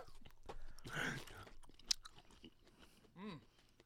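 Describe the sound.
Crunchy chewing of pickled asparagus, a fibrous, fermented vegetable, with a loud burst of wet bites near the start followed by softer, irregular mastication sounds.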